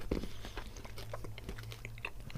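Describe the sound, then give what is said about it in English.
Crunchy munching of a milk chocolate bar with peanut pieces, roasted hazelnut and salted toffee, a run of many small bites and chews over a steady low hum. “dairy milk, milk chocolate with pieces of peanut, roasted hazelnut, and salted toffee. Okay, so munching down on that,”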